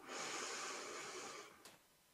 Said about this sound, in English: take a deep breath in through your nose and out through your mouth. Another deep breath in